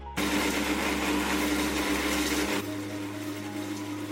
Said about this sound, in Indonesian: Masukkan secukupnya rempah yang sudah kering. Kemudian blender hingga halus.